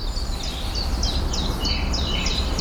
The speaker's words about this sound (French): Là, il y a de la mésange à longue queue. La petite trille qu'on entend à peine là.